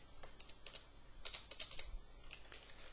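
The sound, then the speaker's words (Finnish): Keys clatter on a computer keyboard as someone types and taps Enter in a web page editor, a quiet, irregular run of many light clicks with no talk. “Jos mä haluan sinne toisen P-elementin, niin mä lyön tänne vähän enttereitä ja kirjoitan toisen kappaleen vaan tänne näin.”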